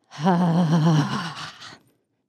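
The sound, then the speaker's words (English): A single loud, voiced sigh as a deep breath is let out, with a groaning tone that wavers in pitch and then trails off into silence. “Take a deep breath in through your nose. And as you exhale, shake it out.”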